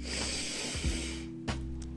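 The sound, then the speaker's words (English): A deep breath drawn in during a guided relaxation and meditation exercise: an airy rush of inhaled air lasting just over a second, followed by a short breathy puff. “As a matter of fact, let's do that now. Let's take a deep breath. Inhale.”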